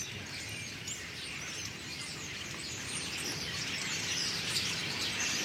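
A large flock of starlings twitters in a dense, unbroken chatter as the birds gather in the evening near a house, the high chirping holding steady and growing slightly louder toward the end.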